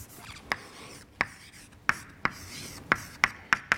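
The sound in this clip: Writing on a board during a physics lecture, faint scratching strokes with several sharp, irregular taps as the writing implement strikes the surface.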